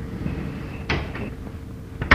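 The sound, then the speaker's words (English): A door is opened with a solid clunk and a brief rattle, followed near the end by a sharper, louder knock. “Let me open the door here.”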